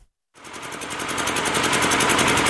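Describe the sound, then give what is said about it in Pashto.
An old electricity generator in a bazaar in Sabari district, Khost, kicks in after a brief silence and drones loudly and steadily, its engine pulsing in a rapid, even rhythm that grows slightly stronger. “دا د صبری ولسوالۍ اړوند یعقوبیو بازار کې د برېښنا یو پخوانی جنراتور دی چې د لوړ غږ، تیلو لوړ مصرف او تریخ لوګي”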